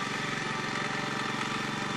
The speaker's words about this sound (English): rides his lawnmower across the lawn